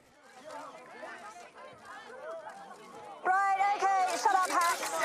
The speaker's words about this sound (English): Later, Patricia brings Harriet and Robert out to face a crowd of press. Fred watches the commotion from a fair distance.